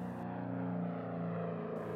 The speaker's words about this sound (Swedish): Och på himlen patrullerar försvarets Stiglitz propellerplan som från luften försöker få syn på de försvunna flickorna.